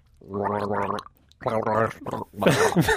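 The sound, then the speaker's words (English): A person gargles on request, making bubbling, voiced gurgles in several loud bursts separated by short pauses. “And the sound it makes is a gargle. That's lovely.”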